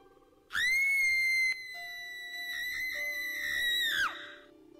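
A woman's shrill scream, one sustained high-pitched cry lasting a few seconds that ends with a sudden downward drop in pitch.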